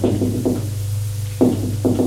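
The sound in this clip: Knocking on a door: a few separate knocks spaced irregularly over a steady low hum, moderately loud and with no voices.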